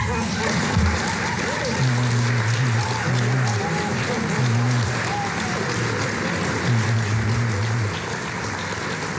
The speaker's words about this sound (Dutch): Groot applaus.